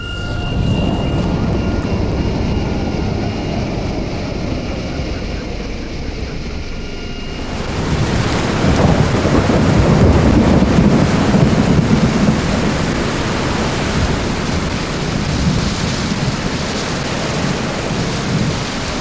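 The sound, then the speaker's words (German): A thunderstorm with wind and lightning, a dense roar of rain and low rumbling that swells fuller and louder partway through and stays heavy and unbroken to the end. “Jetzt hat es gewindet. Blitzt. Die ganze Welt hat so richtig durchgeschüttelt.”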